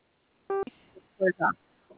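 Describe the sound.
A single short electronic keypad tone from pressing zero on a telephone, a clean steady beep lasting a fraction of a second, followed by a few brief bursts of voice.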